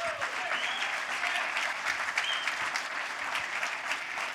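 Church audience applauding to welcome a guest pastor, a continuous, even burst of many hands clapping that stays loud and steady for over four seconds.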